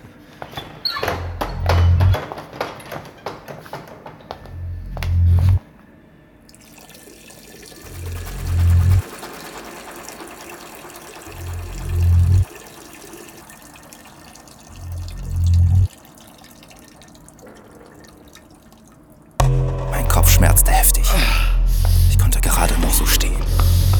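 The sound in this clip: Cold water running from a tap as a face is rinsed, a steady hissing wash, with deep rhythmic thumps pulsing in every few seconds and a louder, fuller burst of sound at the end.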